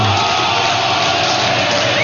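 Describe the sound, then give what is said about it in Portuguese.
Ponte Preta supporters sing and roar at the Moisés Lucarelli stadium during a football match, producing a loud, continuous crowd din with no breaks. “O Daora tá pedindo para a torcida cantar.”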